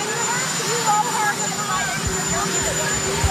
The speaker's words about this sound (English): Sorry, you have a helicopter roaring in the background.